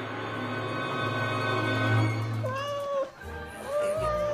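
A cat meows twice, high and drawn out, with the pitch bending up and down, over a steady low hum in an audio drama scene where the cat has just been kicked.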